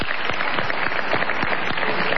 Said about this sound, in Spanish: Aplaudámoslo. Aplaudámoslo.